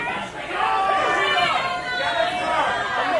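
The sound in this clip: A live comedy audience shouting out names all at once, a jumbled wall of overlapping voices that swells and stays loud throughout, with no single word standing out.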